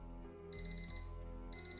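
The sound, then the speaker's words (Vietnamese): Phone alarm ringing at midnight: two bursts of rapid, high-pitched electronic beeps, faint over a low steady hum, with the second burst cut off. “tiếng chuông báo thức từ điện thoại vang lên đánh thức Giang”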